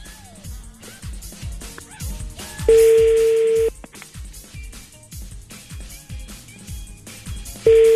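Ringback tone of an unanswered prank phone call: a steady mid-pitched tone rings twice, about a second each with a long gap between, the second cut off at the end, over a busy background of rhythmic low thumps.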